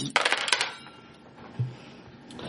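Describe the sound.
Four dice are rolled during a tabletop role-playing game, a quick run of sharp, rattling clicks as they tumble and knock together, followed after a pause by a single softer knock.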